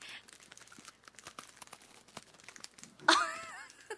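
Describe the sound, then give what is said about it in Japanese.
Crunchy, crackling chewing sounds made close to the microphone for ASMR: a steady run of many small clicks and crinkles, then a louder burst of crackle near the end. “咀嚼音が苦手な方は申し訳ございません。”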